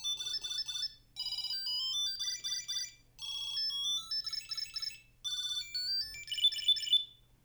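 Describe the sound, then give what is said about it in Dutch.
A Tile Bluetooth tracker rings with a high, bright electronic melody that repeats in several bursts of rapid twinkling notes separated by brief pauses, over a faint low hum and without any talking. “Tap find to ring your tile.”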